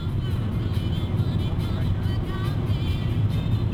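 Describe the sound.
A steady, loud roar of engine and road noise from a car driving on the Autobahn south from Berlin, continuous and unbroken with no pauses or talk.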